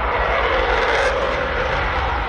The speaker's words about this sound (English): NATO fighter jets like this French Strategic Air Force's Rafale were active over Polish airspace to deter more Russian drones.